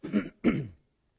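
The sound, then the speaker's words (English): Throat clearing from someone struggling to get their throat clear: two rough, guttural bursts in quick succession, the second slightly longer, followed by silence. “I'm agitated because I can't get my throat clear.”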